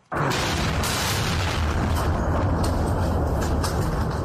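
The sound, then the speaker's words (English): An airstrike explosion close to military headquarters in Khartoum: a loud, broad roar starts abruptly and holds steady at full strength to the end, a dense continuous rumble rather than separate blasts. “That is the sound of an airstrike that hit close to military headquarters in Khartoum Tuesday morning”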